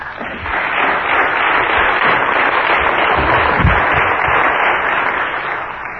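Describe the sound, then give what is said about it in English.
Audience applause welcoming a speaker: steady, dense clapping that holds a loud, even level throughout, with no voices. “So please give Richard Bonas a warm welcome.”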